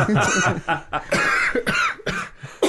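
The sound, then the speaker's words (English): Coughing from people in conversation, one cough apparently faked and another real: a few harsh, breathy bursts mixed with voiced, chuckling sounds, loud and close together. “Mine was a real cough.”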